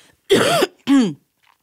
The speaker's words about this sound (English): I'm still coughing.